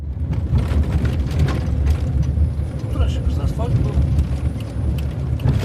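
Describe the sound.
A car climbs a hill on an uneven road in the Kuzbass mining region, its engine a steady, fairly loud low rumble with rattling and jolting throughout.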